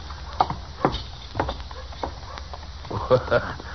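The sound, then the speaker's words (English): Horse hooves clip-clopping as a rider comes up Front Street in a Western town, several hollow, even-paced clops in a steady walking rhythm. “Riding right up Front Street is big as life.”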